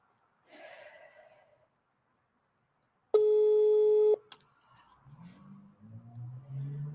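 A telephone ringing tone sounds while a call is being placed, one steady electronic tone lasting about a second, with faint breathy sounds before and after it.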